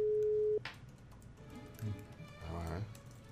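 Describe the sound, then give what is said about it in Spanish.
A telephone call is dialed and goes unanswered: a single steady tone sounds for about half a second and cuts off abruptly, and then people talk over a quieter background. “Le voy a marcar, fíjate.”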